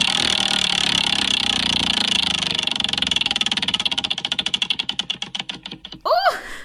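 A prize wheel spins with a rapid rattle of ticking clicks that gradually slow into distinct, widely spaced clicks before it comes to rest.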